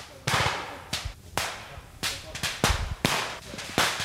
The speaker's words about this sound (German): Feindliche Mörsergranaten. Die Rekruten und Rekrutinnen zielen mit ihren Sturmgewehren auf die fiktiven Angreifer.